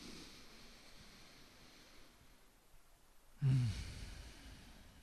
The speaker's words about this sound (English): Take a big breath in.